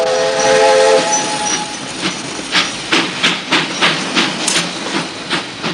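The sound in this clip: Train departing along the rails: a train horn sounds at the start, then loud, regular clickety-clack of wheels over rail joints builds into a steady rhythm.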